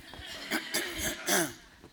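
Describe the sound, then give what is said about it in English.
Throat clearing from a speaker addressing a church audience: a few short, rough, gravelly bursts, the strongest near the middle, with fainter catches around them. “Let's clear my throat.”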